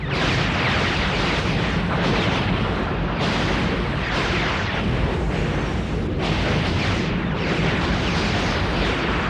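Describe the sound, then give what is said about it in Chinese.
Artillery fire from a space fleet in battle forms a dense, continuous roaring barrage of explosions. It stays loud and unbroken throughout, with overlapping booms and no clear gaps between shots. “成功入侵走廊的布拉斯契舰队，对等在那里的洋舰队射出最初的炮火。 射击。”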